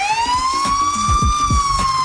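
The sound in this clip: A police car siren heard while driving: a loud, continuous wail that sweeps slowly upward and levels off, over low rumbling traffic noise.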